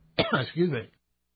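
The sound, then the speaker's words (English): Throat clearing and coughing after choking on words, two short harsh bursts in quick succession, followed by silence. “Excuse me. Wow, I choked on my own words, literally. That's never happened before.”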